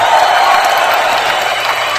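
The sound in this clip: Loud applause from a group, mixed with cheers and an occasional whoop, forming a steady, continuous roar of clapping with no pauses.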